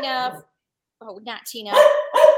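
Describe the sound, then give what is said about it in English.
A female dog barks a few sharp, high yips in short bursts, with a speaking voice mixed in among them. “The dog agrees.”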